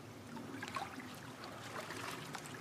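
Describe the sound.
Faint, continuous trickling and babbling of stream water as someone gets into the stream to hide, a soft, even wash of water sound with light irregular splashes.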